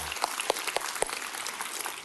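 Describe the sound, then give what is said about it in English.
An audience cheers with applause, a busy patter of many hands clapping. A few sharp, louder claps stand out early on before the sound evens out and thins slightly. “Isn't that awesome? Let's cheer for that.”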